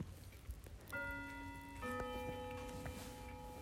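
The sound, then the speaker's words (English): An alarm clock goes off with faint, steady electronic tones layered in several pitches that start about a second in and shift to a new set of tones partway through, holding over low background noise. “That's my alarm clock.”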